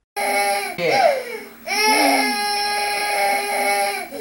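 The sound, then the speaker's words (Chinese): A child cries loudly in a few high, wailing sobs. The last cry is long and sustained, with a strained, trembling pitch. “沉香唔知点样做先至好啊，于是就放声大哭，喺度喊啊！”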